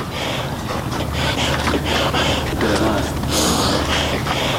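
Heavy, rhythmic breathing of a mountaineer climbing Siakoh mountain, each labored breath rasping in a steady run of gasps over a constant windy rush.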